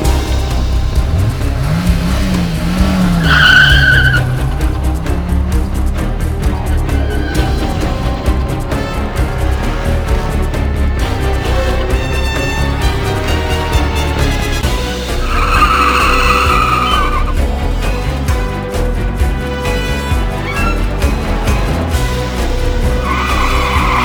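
A car driving off with tires squealing: loud rubber screeches break out early and again past the midpoint over a continuous, dense roar of engine and road noise that lasts throughout.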